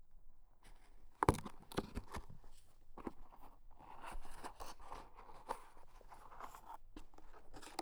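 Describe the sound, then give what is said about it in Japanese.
Quiet crinkling of the plastic packaging on a new set of cotton swabs as it is opened: irregular soft rustles and crackles, with one sharper snap early on, then continued faint handling. “そうだ、綿棒を開けるね。”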